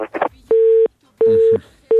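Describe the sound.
A busy tone sounds after a phone call cuts off: steady, mid-pitched beeps repeat at even intervals, three in view, after a brief burst of voice.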